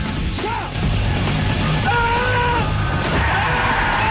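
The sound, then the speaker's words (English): A car brakes hard and skids to a stop, with tyres squealing in high, drawn-out wails over a loud, continuous rumbling roar. “Ray hits the brakes and stops an inch from Bosley”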